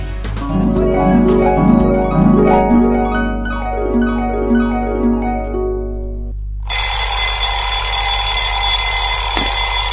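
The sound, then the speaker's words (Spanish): An alarm clock rings, first with a repeating pattern of stepped electronic tones, then with a loud, continuous bright bell-like ringing. “Hace 5 minutos que sonó el despertador.”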